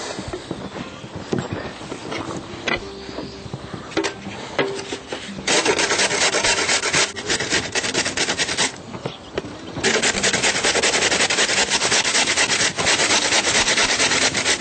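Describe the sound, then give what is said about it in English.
Rasping strokes of a potato being grated for a vegetable dish: a few scattered scrapes at first, then two sustained bursts of fast, rhythmic grating separated by a brief pause. “Now I'm going to grate the potato.”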